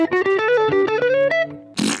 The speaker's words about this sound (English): The fart pedal. Not quite as effective as I would have hoped.